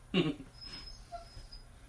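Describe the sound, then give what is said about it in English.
A dog cries in the background during a home video call, giving one short, faint yelp followed by thin, quiet whines. “I'm sure you can hear our dog just fine in the background crying.”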